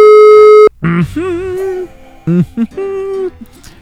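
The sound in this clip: A telephone tone as a call is placed: one steady electronic tone lasting under a second and then cutting off. Voices follow right after.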